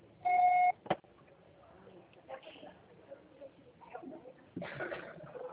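A single steady electronic beep from a phone call reaching voicemail sounds briefly, followed by a sharp click and faint shuffling noises.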